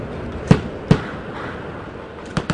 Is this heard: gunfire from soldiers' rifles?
yes